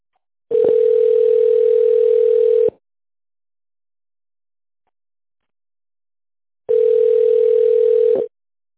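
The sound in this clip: Telephone ringback tone on a line while a call to a company is being connected: two long, steady, mid-pitched tones, each about two seconds, separated by a silent pause of roughly four seconds.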